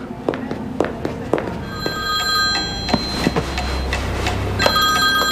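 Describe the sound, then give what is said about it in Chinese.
A telephone rings in repeated bell-like bursts, loud and clear, with scattered clicks and a low rumble beneath. “哦，不好意思，我接个电话。”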